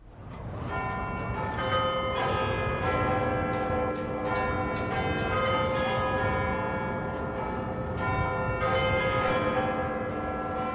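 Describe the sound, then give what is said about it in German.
Strikes of the Big Ben bell in London, used in a real-time sound sculpture, sound several times. Deep, resonant tolls overlap in long, humming, shimmering decays, at a steady moderate level throughout. “Die hat der Soundhauer Bill Fontana gemacht und er hat die Glockenschläge des Big Ben in London”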